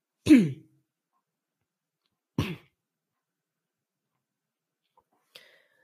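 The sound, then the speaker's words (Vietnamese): Two sharp, dry coughs about two seconds apart, the first louder than the second, each standing alone against silence, with a faint brief sound trailing later. “xin lỗi các bạn, do mình bị ho liên tục quá, có lẽ là mình xin phép dừng lại ở đây.”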